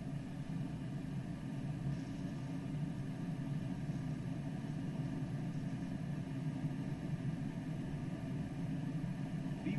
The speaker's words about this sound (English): And takeoff power. Cabin crew, proceeds for departure 80 knots.